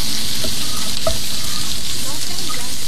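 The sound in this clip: Food fries and is stirred in a pan: a loud, continuous sizzle with scattered scraping strokes throughout.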